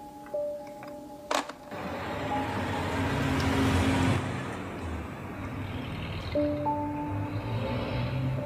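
A car being driven, heard as a steady, continuous rumble of engine and road noise that holds a fairly even loudness for about eight seconds.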